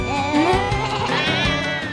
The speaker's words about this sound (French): Au bord d'un étang, le loup croisa un mouton.